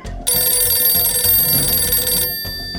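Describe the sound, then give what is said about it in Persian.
A telephone rings in 1953 Tehran, one sustained bright, high ring lasting about two seconds over a low rumble before it cuts off abruptly. “او به مصدق تلفن کرد”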